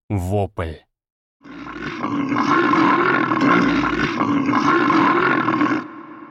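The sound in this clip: A bear roaring in agony after being bitten in the eye: a brief spoken voice, then a long, loud, rough growling roar that holds steady for about five seconds before cutting off.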